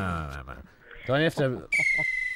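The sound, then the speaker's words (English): A whistle is blown in one steady, high, sustained blast near the end, following a stretch of talking voices during a chat about Australian football. “Blow my whistle just to be able to actually get in and have a word. Are you blowing that with your mouth?”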